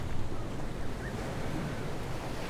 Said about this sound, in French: Me revoilà devant la mer.